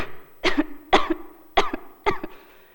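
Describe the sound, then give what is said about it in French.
Four small coughs from a woman, evenly spaced and heard alone. Each one is a short, light burst with a quick second catch of the throat. “une petite toux vint lui chatouiller la poitrine.”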